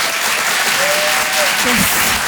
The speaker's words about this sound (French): Je vous demande un tonnerre d'applaudissements là aussi pour Philippine Delerre.